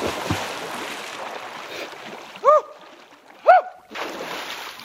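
Splashing water as swimmers plunge into a cold mountain lake, with rushing surges at the start and end and two short vocal whoops in between.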